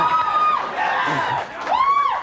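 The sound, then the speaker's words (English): A live comedy show audience cheers and whoops, with rising-and-falling whoops at the start and again near the end over a loud, continuous crowd roar. “Cheering the concept of it not being that good.”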